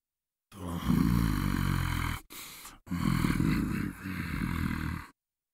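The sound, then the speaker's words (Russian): A voice growling like an animal gives a low, guttural, rasping rumble in two long stretches, split by a short break, at a moderate level with no words spoken. “Снова раздался голос. Теперь он напоминал звериное рычание.”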